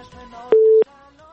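A telephone line signal sounds as a radio show connects to a caller: one steady mid-pitched electronic beep, held for about a third of a second over a faint line hum.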